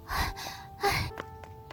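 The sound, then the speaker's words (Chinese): Heavy panting from a person out of breath after running, with a couple of loud, breathy gasps followed by quieter short breaths. “月牙进来，放下东西先喘气，看来是跑过来的”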